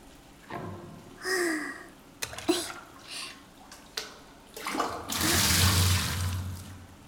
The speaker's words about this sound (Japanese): さあ、流してくわよ。目はつぶったままね。